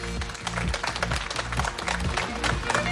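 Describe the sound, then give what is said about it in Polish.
Audience applause at a summer radio music festival in Zakopane, many hands clapping in a dense, steady patter that holds at an even loudness throughout. “Proszę Państwa, tak jest, brawa.”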